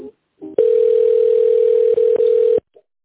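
A telephone line tone plays while a call is being transferred: one steady, mid-pitched electronic tone holds for about two seconds with two brief dips, and short clipped sounds come just before and after.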